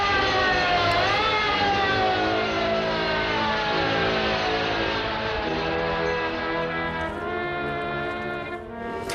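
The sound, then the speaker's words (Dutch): A loud, sustained, siren-like tone with a brief pitch bend near the start, from Amsterdam professional fire brigade engines driving back to their stations, holding steady throughout without talk. “En onder belgerinkel rijden de wagens naar hun kazernes terug.”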